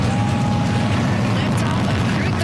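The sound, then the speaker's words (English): A Falcon 9 rocket launches from Cape Canaveral carrying a crew aboard a Dragon capsule, a loud, unbroken deep roar with crackling texture that stays powerful throughout. “That is the sound of the beginning of a great adventure for Joshua Kutrick, the Canadian astronaut on board the Falcon 9 rocket that launched this morning from Cape Canaveral.”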